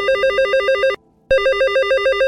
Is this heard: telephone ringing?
yes